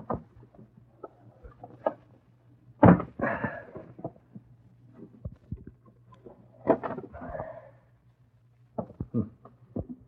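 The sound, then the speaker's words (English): Careful opening of a window: scrapes, soft knocks and creaks, with a few louder bursts of rattling among quieter clicks and taps, all over a steady low hum. “Now, if I can open this window without breaking it. There we are.”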